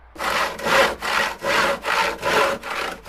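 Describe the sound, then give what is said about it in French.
A hand saw cutting wood in six steady back-and-forth strokes, each a rasping burst of even loudness with short gaps between, alone with no voices. “Une scie, ça fait comme ça.”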